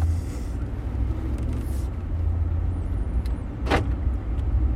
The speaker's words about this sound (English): I'm going to drive around a little bit this subdivision while I'm talking.